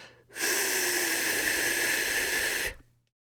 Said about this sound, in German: Atme durch den Mund aus, indem du mit den Lippen ein F bildest